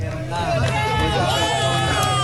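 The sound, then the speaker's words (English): A crowd cheers and shouts as rescuers pull a man alive from the rubble of a collapsed shopping center in Venezuela, eight days after earthquakes. Many raised voices blend into a sustained, excited din. “Cheers erupt as a man is pulled alive from the rubble 8 days after the devastating earthquakes.”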